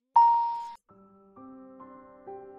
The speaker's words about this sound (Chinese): 导航仪突然“嘟”的一声响了